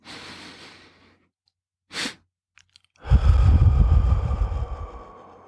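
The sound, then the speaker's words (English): A breathing exercise: a long inhale through the nose, then a brief second sniff to top up the lungs, then a long, loud, rushing exhale. “breathe in through your nose so almost you feel your lungs are full. And then it's another short inhale through the nose to just finally top off or top up your lungs. And then the breath out.”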